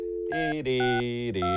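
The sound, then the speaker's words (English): Telephone dialing tones as a man calls his young son: a few steady electronic tones follow one another, each holding a buzzy pitch before switching to the next. “All right, here I go. I'm going to dial him up.”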